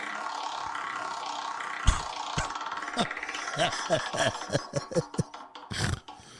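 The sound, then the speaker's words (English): An old dusty promo wheel spun for a prize giveaway gives a run of many sharp, separate ticks that become more pronounced as it turns, with talk heard between them. “You have to do the deed for Creed, this old dusty promo wheel that I've got. I brought in. Go ahead and spin it”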